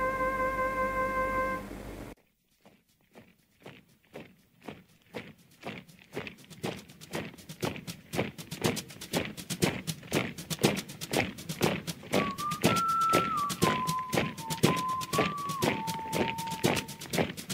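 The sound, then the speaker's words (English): Soldiers' footsteps march on Anzac Day in a steady, regular rhythm of many heavy steps that grow louder, after a steady tone at the opening; a faint wavering tone sounds above the tramping later on. “Can you hear Australia's heroes marching? Can you hear them as they march into”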